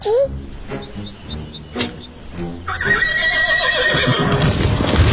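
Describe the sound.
A horse neighs at a stable. A short cry comes at the start and a longer, shrill, wavering whinny follows later, with scattered knocks in between.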